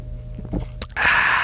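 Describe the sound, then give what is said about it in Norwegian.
Someone drinks right up against a microphone, with a couple of short wet mouth clicks followed by a louder, sustained breathy rush of noise. “Drikke på mikrofonen, så uprofesjonelt.”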